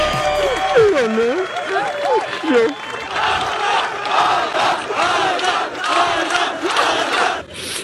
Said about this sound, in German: ist dann ins Ziel gekommen, und zwar in Los Angeles. Und da haben ihn einige Fans erwartet. Hör mal.